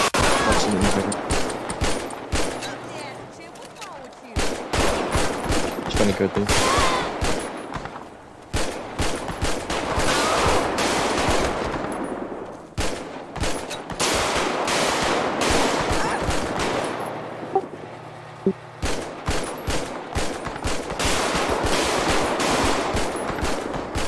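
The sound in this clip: Dense automatic gunfire from an officer and suspects in a police-patrol video game mission, long loud bursts of rapid shots running almost continuously, broken only by a few short pauses.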